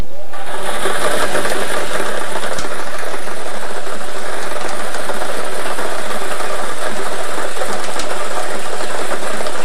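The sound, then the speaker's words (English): Lottery draw machine spinning its balls: a loud, continuous whirring churn with dense rattling and clattering that holds steady throughout, without pauses. “Let's get these balls spinning so you can start winning.”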